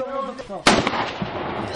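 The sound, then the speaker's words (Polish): A single sharp crack of live-ammunition rifle fire at a shooting range bursts out loudly and fades in a ringing decay; a voice talks briefly just before the shot. “Tak, to już jest strzelanie z ostrej amunicji.”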